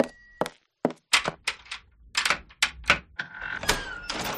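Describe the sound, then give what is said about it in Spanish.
A door is opened with a string of sharp clicks and dull thunks from the latch and handle, broken by brief silences, with a faint high squeak at the start and again near the end. “Ya abro yo.”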